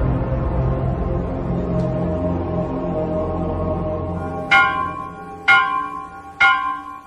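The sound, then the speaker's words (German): Church bells ring, struck three times at even intervals near the end after a low, steady rumbling background. Each strike is bright and clear and decays slowly. “der frühen Christenheit ist das Glockenläuten Signal zur Abwehr heidnischer Dämonen.”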